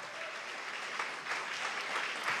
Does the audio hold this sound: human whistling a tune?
no